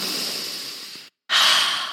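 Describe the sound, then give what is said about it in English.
Breathing in and then out during a breathing exercise, one hand raised on the inhale and lowered on the exhale: a steady airy rush, a brief silent pause, then a louder, brighter breath out, with no talk. “Left hand up, inhale. Left hand down, exhale.”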